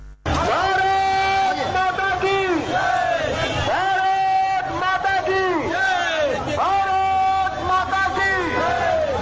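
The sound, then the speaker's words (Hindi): A crowd chants 'Bharat Mata ki Jai' slogans during a BJP yatra in Patna. Loud voiced calls in unison repeat in a steady rhythm throughout. “यात्रा के दौरान पूरा वातावरण भारत माता की जय के नारे से गुंजायमान रहा।”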